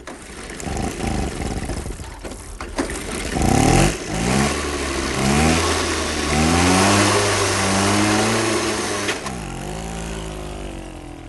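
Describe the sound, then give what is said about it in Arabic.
Motorcycle engine revving loudly: the motor climbs in several rising sweeps of pitch, then drops back to a rough, steady drone. “دراجة نارية.”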